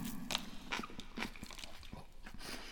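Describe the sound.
Someone bites into bread eaten with Japanese nozawana pickles, making several crisp, irregular crunches and chewing sounds. They are fairly faint and spaced unevenly, with no talking.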